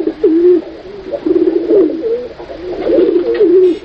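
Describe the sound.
Cooing of a white pigeon: a few low, throaty, rolling coo phrases repeated steadily and fairly loud, with no talk over them.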